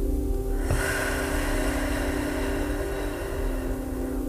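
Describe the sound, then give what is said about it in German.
A deep breath drawn in through the nose and let out through the mouth: a soft, airy rush lasting roughly two seconds over a steady low hum, with no talking. “Atme einmal tief durch die Nase ein und durch den Mund wieder aus.”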